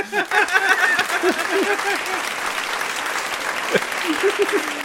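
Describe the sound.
An audience applause sound effect: a burst of crowd clapping with voices speaking and chuckling over it, holding fairly steady throughout.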